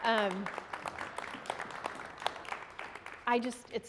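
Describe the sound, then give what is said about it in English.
An audience applauds a guest speaker at the end of a talk, a light, steady patter of clapping, with a voice speaking at the start and again near the end. “Can we just give him a round of applause?”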